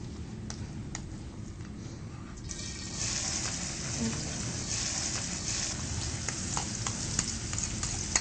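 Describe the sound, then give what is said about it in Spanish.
Onion and other vegetables sautéing in heating oil in a pan, a steady, dense sizzling hiss that grows slightly louder after about three seconds, dotted with small clicks and taps from stirring. “Te pido por favor que tú me sofrías todas estas cosas y ahí freír. Que se caliente un poquito, ¿sí? El aceite.”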